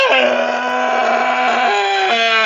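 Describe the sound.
A voice imitating the loud roar of a motorcycle with a modified muffler, a sustained buzzing, rumbling drone that holds for about two and a half seconds and shifts pitch a couple of times.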